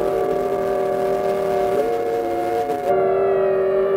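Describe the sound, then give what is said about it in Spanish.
Factory and port sirens sound an alarm across Barcelona during an uprising, a loud, sustained chord of layered tones holding steady pitch throughout, unbroken apart from a slight shift near the end. “La CNT hace sonar las sirenas de las fábricas y del puerto. Su sonido alerta a los militantes y a toda la ciudad.”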